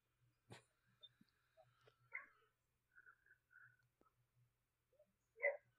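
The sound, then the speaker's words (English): A female pet dog barks indoors in a few short, faint yips spread across a quiet stretch, with one louder bark near the end. “I don't know what's wrong with my dog now. Now she's barking at me.”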